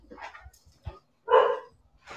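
Dogs bark in a few short, uneven bursts with quiet gaps between, one longer, louder bark standing out in the middle; no voices.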